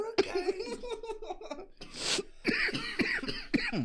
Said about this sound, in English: That got you coughing.